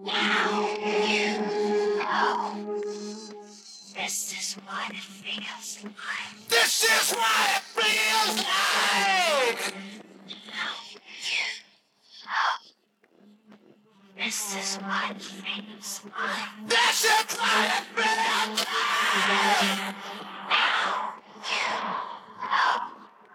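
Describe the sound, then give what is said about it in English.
Whispers and screams from a recorded vocal duet: breathy whispered passages alternate with loud, raw screamed bursts, separated by short pauses and near-silent gaps. “Okay, some whispers and screams.”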